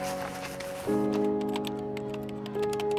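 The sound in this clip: Typing on a computer keyboard: a run of light, quick clicks and taps over a steady electrical hum, starting a moment in and continuing to the end.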